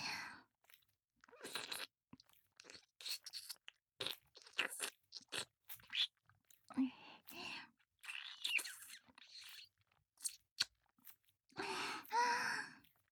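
Japanese ASMR ear licking and nibbling with the tongue tip: many soft, wet smacks, clicks and crunchy nibbles come in irregular short bursts, quiet and close, separated by silent gaps.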